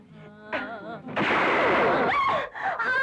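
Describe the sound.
A gunshot fired at a row of eggs set up as targets: a sudden, harsh blast lasting about a second, with voices shouting before and after it.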